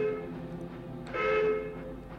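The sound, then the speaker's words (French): A locomotive's dull rumble, a train carrying wartime cargo, heard as a steady tonal drone that swells louder through the middle and then eases off, with no voices. “soudain on entend au loin le bruit sourd d'une locomotive.”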